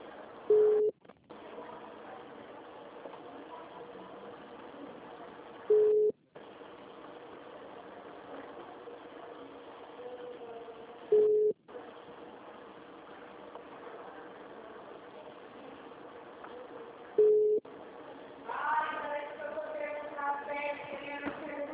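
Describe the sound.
A telephone call being dialed: four short tones repeat about every five to six seconds over a faint, steady hiss, and a voice comes on at the end.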